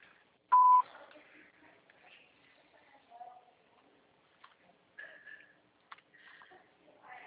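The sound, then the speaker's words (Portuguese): Voicemail beep before a message is recorded: a single short, loud, steady electronic tone, followed by faint rustling, sniffing and scattered soft noises. “Sua chamada está sendo encaminhada para a caixa de mensagens e será sujeita a cobrança após o sinal. Após o sinal, grave sua mensagem.”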